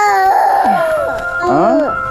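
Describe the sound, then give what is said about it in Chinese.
A baby cries continuously in a high, wavering wail with sliding, drawn-out pitch, loud and unbroken throughout. “你这孩子是不是有啥毛病啊？这咋哭起来没完没了？”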